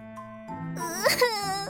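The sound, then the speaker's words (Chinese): Fake crying performed by a voice actor: a single high, wavering wail with sobbing catches, swelling in the middle and trailing off, with no other sounds around it. “各种哭声展，假哭。”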